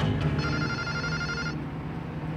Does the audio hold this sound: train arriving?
no